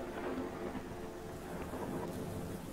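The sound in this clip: Rain and wind during a storm, a faint, steady rushing hiss with a low rumble running through the whole stretch and no voices.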